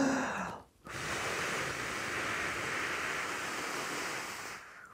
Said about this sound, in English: first of all, big breath and blow, not hard, but consistently. So like this.